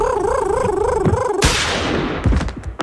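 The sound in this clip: A human voice imitates a warbling bird call during a pretend hunting game, a wavering up-and-down trill that cuts off abruptly into a sudden burst of noise, followed by a few scattered clicks.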